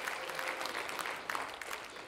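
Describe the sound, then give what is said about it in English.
A church audience gives a big round of applause, many hands clapping in a dense, continuous roar of even loudness throughout. “If you believe heaven's going to be a beautiful place, give the Lord a big round of applause.”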